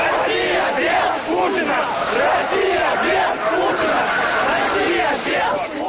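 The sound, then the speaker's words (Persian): Protesters chant freedom slogans at a Russian opposition street demonstration in St. Petersburg, waving orange flags; a dense, loud crowd of voices shouts continuously in rhythmic surges with no pause. “تظاهر کنندگان در حالی که پرچم نارنجی رنگ به دست داشتند شعار آزادی سر می دادند.”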